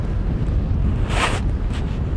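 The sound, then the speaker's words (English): A gust of wind sweeps past where a kite is about to be rigged, a low buffeting rumble with a brief hissing surge in the middle. “Right now there's a nice gust that I can feel.”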